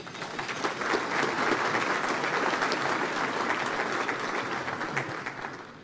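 Audience applause welcomes Texas Comptroller Glenn Hegar, a steady, dense wash of clapping from many hands that stays even and loud throughout.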